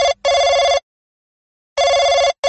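A telephone bell rings loudly and alone in paired bursts, a short ring then a longer one, with a long silent pause before the next pair begins.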